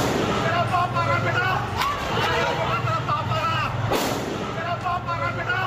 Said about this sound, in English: A police constable seen firing an AK-47 as Bihar Bandh turned violent.